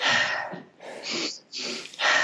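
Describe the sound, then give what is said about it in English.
Slow, connected breaths drawn in and out through the nose as a relaxation sigh exercise: a few long, airy, hissing breaths flowing into one another, with brief quiet gaps between them. “if you just do three sighs in a row and then just connect the sighs together, so the inhale is meeting the exhale is meeting the inhale. So in through the nose.”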